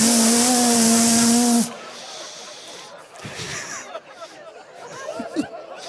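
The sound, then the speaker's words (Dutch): A man's voice imitates the hiss of a wide-spray mist sprinkler with a loud, steady hiss lasting under two seconds, then it stops and quieter sounds follow. “En die zette er een breedsproeier open. Ken je dat? Zo'n mistkaar. Zo...”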